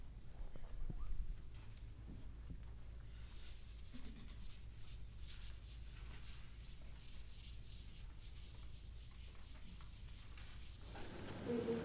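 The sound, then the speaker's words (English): Rubbing of writing being erased from a board, a steady, continuous scrubbing of many quick strokes that runs for about twelve seconds at moderate loudness. “So does everybody have this so I can erase it?”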